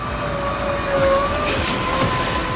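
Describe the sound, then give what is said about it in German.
An ice resurfacing machine drives across an ice hockey academy rink in Liefering, giving off a continuous, even mechanical rumble and hiss with a faint shifting whine on top. The sound stays loud and steady throughout, with no talking. “Da fährt er jetzt dahin, der Eismeister in der Eishockey-Akademie in Liefering.”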